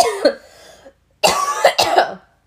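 A person coughs and clears their throat in a few rough, raspy bursts, loud and close with short gaps between them.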